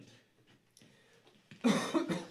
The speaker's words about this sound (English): just cough into the fucking mic, don't you?